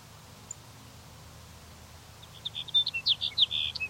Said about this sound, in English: Here's sage sparrow number two.